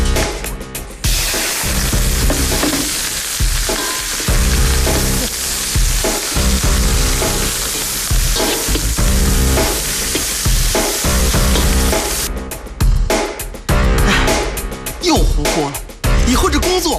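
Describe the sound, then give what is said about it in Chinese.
Loud, continuous sizzling from stir-frying in an iron wok, with a dense hiss of oil and food broken by repeated stirring and tossing strokes throughout. “还在用铁锅炒菜吗？早就该换了。”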